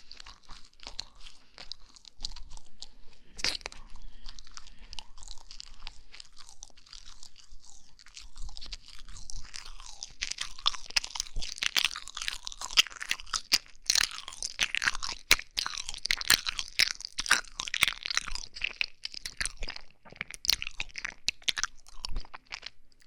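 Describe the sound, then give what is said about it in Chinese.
Crunchy food is bitten and chewed in many crisp, rapid crunches that grow denser and louder through the second half, with no talk. “好吃吧？来，再来吃一个。”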